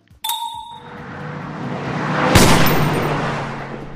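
Gunfire from a gun in a driving combat video game: a sharp shot with a ringing tone, then a sustained loud roar and a second sharp blast over it.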